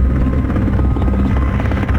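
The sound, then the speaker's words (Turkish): Firefighting helicopters at a forest fire at first light make a loud, steady, low throbbing rotor drone that continues without a break. “İşte helikopterler devreye girdi sabahın ilk ışıklarında.”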